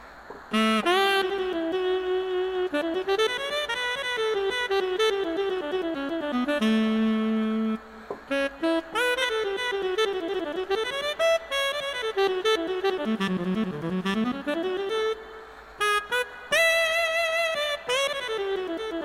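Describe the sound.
A saxophone patch on a keyboard synthesizer is played live, a solo melodic line of sustained, reedy notes with swooping pitch bends and brief pauses between phrases, with no talking.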